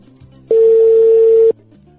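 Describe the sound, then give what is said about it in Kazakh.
A telephone tone sounds while a call is placed: one steady, sustained beep at a single pitch, lasting about a second, loud against a quiet background. “Біз қоңырауымыз шалынып жатыр.”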